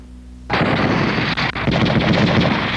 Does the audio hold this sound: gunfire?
yes